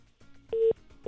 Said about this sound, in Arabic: انقطع الاتصال، ما عندك إرسال شكله